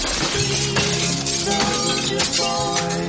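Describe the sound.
Glass shatters as a window is smashed with a baton. A loud, dense crash and scatter of breaking glass fills the whole few seconds, with sustained tonal sounds running underneath.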